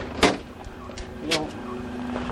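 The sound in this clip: A car door slams shut with a sharp thud, followed a moment later by a second, softer knock over a steady low hum.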